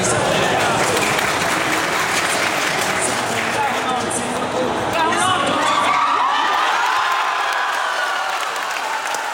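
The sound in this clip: A crowd cheers and applauds a 2-0 goal while watching Sweden's World Cup opening match in a church. The loud, dense roar of clapping and shouting runs continuously, and its low rumble thins after about six seconds.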